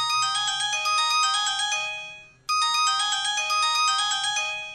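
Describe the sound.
A phone ringtone plays for an incoming call. A bright, chiming electronic melody repeats twice with a short pause between the phrases, and no one talks over it.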